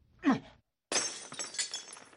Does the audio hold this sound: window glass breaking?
yes